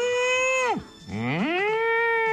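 A cow mooing sound effect gives two long, low, droning moos. The first sags in pitch as it ends; after a short gap, the second rises and then holds steady, with nothing else heard.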